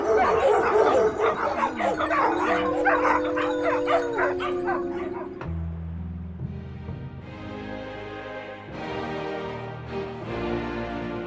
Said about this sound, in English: That does it! Shut up, dog! Shut up! Shut the hell up!